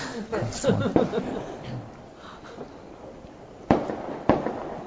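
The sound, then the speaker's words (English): Gunshots outside on a Saturday night: two sharp, loud cracks spaced about half a second apart near the end, following people talking and chuckling. “There, it's okay, they're just shooting.”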